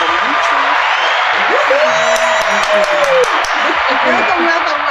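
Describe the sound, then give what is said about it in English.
Studio audience applause on a talk show greets arriving guests, a dense, loud roar of clapping mixed with cheers and a high whoop, while a voice speaks over it. “Please put your hands together and welcome Mr. Charles and Dr.”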